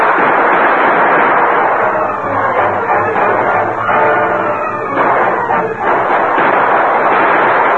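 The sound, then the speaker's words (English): A dense, loud barrage of gunfire from two gunmen firing at shadows across a street. The shots overlap into a continuous roar of cracks and booms with only brief dips, and the volley never pauses. “With incredible speed, they reloaded and fired again. For 5 minutes, they kept up their barrage.”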